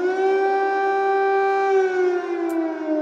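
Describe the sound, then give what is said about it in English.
An air raid siren sounds over Kyiv, a loud continuous wail with a rich stack of harmonics, holding a steady pitch for the whole stretch with no voices over it. “what has become a hauntingly familiar sound: air raid sirens across the city.”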